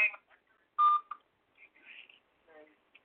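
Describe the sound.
Telephone keypad tones as someone dials to call a person back: one loud, steady tone burst among a few fainter short bleeps, with brief faint voice fragments between them.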